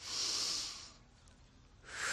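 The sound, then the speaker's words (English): A slow, quiet breath is drawn in through the nose as a soft, airy hiss lasting about a second. After a pause, another breath begins. “Breathe in through the nose.”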